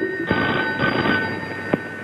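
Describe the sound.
A telephone rings for an incoming call, its bell a continuous bright, buzzing trill that carries steadily through the whole moment, loud and alone with no voices.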